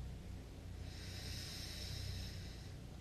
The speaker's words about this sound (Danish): Tag igen en dyb indånding gennem næsen.